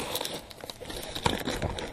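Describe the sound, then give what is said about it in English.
Packing tape being cut with a small tool to open a cardboard package, producing quiet crinkling and scraping with a few sharper ticks and tears. “I'm opening the right side using this little thing to cut the tape, and then I am doing the same thing with the left side.”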